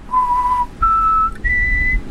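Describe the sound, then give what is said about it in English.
A person whistles three sustained high notes, each a step higher than the one before, separated by brief pauses. The whistling is clear and alone, with no other sound. “Was it whistling? Was it? Yeah, I got a degree in whistling.”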